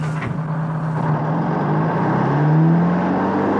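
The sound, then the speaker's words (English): A heavy truck rig pulls away and roars off, its engine a loud, steady drone whose low tone climbs as it accelerates, swelling slightly toward the end. “The rig pulls away, belching dark grey smoke from its exhaust pipes. As it roars out of the camp gates”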